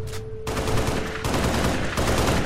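Warning shots ring out as rapid, dense gunfire, loud and nearly continuous in bursts that run together.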